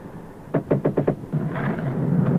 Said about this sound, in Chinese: 不碍事，幸亏你敲门了。